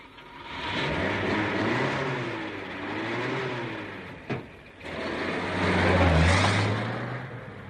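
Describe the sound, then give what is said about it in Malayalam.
A car engine revs and pulls away as a driver moves off, the broad roar swelling and easing in two surges with a brief sharp click between them. “Driver, driver, വണ്ടി എടുക്കൂ.”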